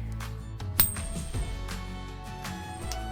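Video game coin effects as coins are thrown into the air and fall back, a few bright metallic clinks and chimes, with one sharper clink early on.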